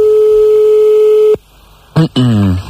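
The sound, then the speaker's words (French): Telephone ringing tone on a call placed to a couple in France: one steady, single-pitched tone holds for over a second, then breaks off into a short silence before a voice answers. “nous allons appeler des messieurs et madame Lacrotte”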